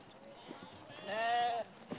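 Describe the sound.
A single wavering sheep bleat, one of a lamb and three ewes being taken to the butcher and loaded into a trailer, quiet and lasting about half a second against a soft background.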